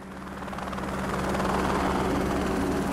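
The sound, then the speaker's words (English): Helicopter ferrying out an energy contractor's equipment: a steady, loud rotor and engine drone that swells over the first second and a half, then holds level with no voices. “That's the sound of energy contractor Western GECO's equipment being ferried out by helicopter.”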